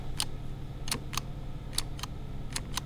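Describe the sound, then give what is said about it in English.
Sharp clicks from a hand counter tallying pollen under a microscope in a lab, about seven crisp taps at an uneven pace over a low steady hum. “Each click tallies pollen from a specific plant.”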